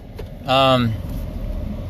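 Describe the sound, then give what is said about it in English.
Air conditioning runs inside a truck cab, a steady broad whoosh that continues throughout, with a man's voice heard briefly over it. “coming to you from the truck here, AC's on”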